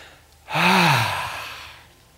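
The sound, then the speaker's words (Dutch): A deep, audible breath during a group relaxation exercise: one long sigh-like intake and release with a faint voiced edge, swelling quickly, holding, then easing away over about a second and a half. “Even allemaal heel diep adem en dan.”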